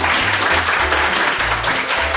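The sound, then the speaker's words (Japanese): An audience applauds at a live book event, a dense, steady wash of clapping that holds at an even level for the whole two seconds with no voices standing out. “盛大な拍手ありがとうございます。”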